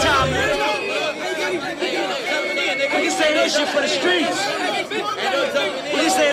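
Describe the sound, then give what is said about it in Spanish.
Street crowd tumult ambience from an album track: a thick, continuous babble of many overlapping voices talking and calling out at a fairly steady level. “Mezclado con un sonido ambiente como de tumulto callejero, hasta el momento en el que para la música.”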